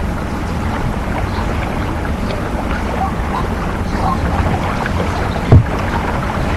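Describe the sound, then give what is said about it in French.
Water lapping at a riverbank along the Seine quays at night, a steady, moderately loud rushing wash with no clear individual waves, broken by a single soft thud near the end. “On entend sourdement le bruit de la ville et surtout le bruit de l'eau.”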